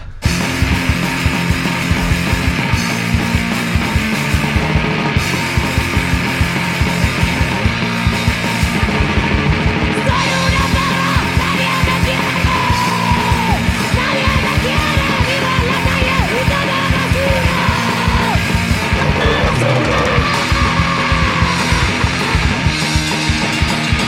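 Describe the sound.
A 2019 hardcore song with a woman screaming the vocals over loud, dense distorted guitars and fast pounding drums, driving and unbroken throughout.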